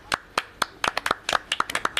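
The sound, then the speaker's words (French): A few people applaud in a radio studio. Crisp, uneven hand claps start sparse and come faster and more overlapping toward the end, with no voices. “Merci, messieurs. Vous pouvez vous applaudir.”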